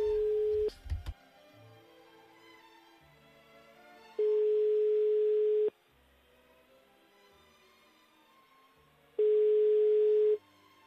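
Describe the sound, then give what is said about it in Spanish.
Ringback tone of a telephone line ringing while a listener is being called: three steady mid-pitched tone bursts of about a second and a half each, separated by long quiet gaps with faint line hiss. “Venga, estamos llamando a esta mujer.”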